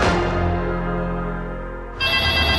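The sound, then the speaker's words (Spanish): An intercom rings with a steady electronic buzzing tone holding level and loud, then breaking off and starting again near the end, with no voices. “¡Contesta tú el citófono, po, que estoy ocupada!”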